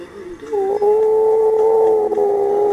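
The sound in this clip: A wolf howling: one long, sustained howl that rises at the start and then holds a steady, clear tone at a fairly loud level, alone without speech.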